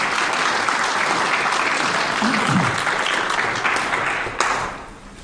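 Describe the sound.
An audience at a Bible lecture applauds to welcome the speaker, with steady, loud clapping that holds for several seconds, then tapers off at the end.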